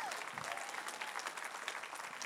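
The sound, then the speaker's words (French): An audience applauds during a church service, a dense, continuous wash of many hands clapping at a steady level throughout, with no pauses. “Oh, applaudissez celui qui nous fait sortir de tous les tombeaux.”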